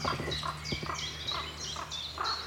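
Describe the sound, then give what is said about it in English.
Harsh, croaking calls from a group of five ravens sound in a rapid series of repeated, evenly spaced bursts, fairly faint. “Oh, there's a fourth. It's right beside me. Oh, taking off now. Five ravens here.”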